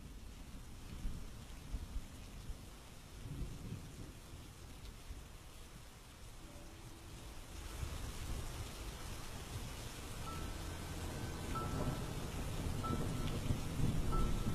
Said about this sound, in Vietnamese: Đi được một lúc, trời đột nhiên ầm ầm đổ mưa.